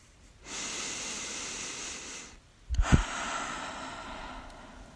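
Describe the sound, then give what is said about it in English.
A deep breath during a guided breathing exercise: a long, steady, airy inhale, then a forceful exhale that opens with a brief nasal snort. It is faint and heard alone. “Take a deep breath. Let's do it together, guys. One more.”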